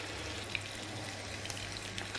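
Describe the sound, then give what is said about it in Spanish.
Meat sizzles in a pan after being salted, a steady crackling fry with a few small pops rising briefly above the continuous hiss. “Le ponemos sal, para que se fría con sal. Y bueno, tapa, debajo el fuego,”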